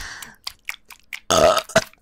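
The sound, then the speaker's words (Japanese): A loud, rough burp forced out on demand, a low rumbling belch lasting about a quarter second, quickly followed by a shorter second burst, with a few faint mouth sounds before it. “お前の大好きなゲップだよ、ほら。”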